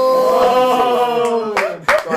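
Hand clapping from one person, a few sharp claps near the end, following a sustained, humming musical tone that fills most of the stretch.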